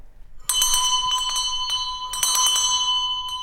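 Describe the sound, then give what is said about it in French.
A bell rung to summon a servant gives a bright, ringing metallic tone. Two bursts of rapid repeated strikes start sharply, and each leaves a long sustained ring between them. It is heard alone, with no voices. “Chopin est venu avec son domestique polonais, Jan, toujours prêt à accourir quand monsieur le sonne.”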